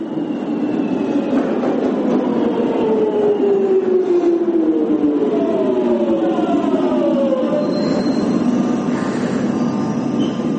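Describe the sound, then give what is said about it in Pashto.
A London Underground train running gives a loud, steady rumble throughout, with thin metallic squealing tones sliding downward in pitch over it. “نو لومړی خبره کوو چې په لندن کې د ځمکه لاندې اورګاډي یو نیم سل کاله پوره شوې دي.”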